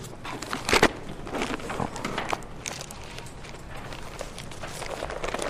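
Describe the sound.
Thin Bible pages being turned in a hurry, heard as a steady run of many papery flicks, rustles and crinkles. One louder crackling burst comes near the start, and there is no talking.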